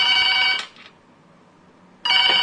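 Telephone ringing sound effect for a studio phone line: a bright electronic trilling ring lasts about half a second, drops to near silence, then starts again near the end.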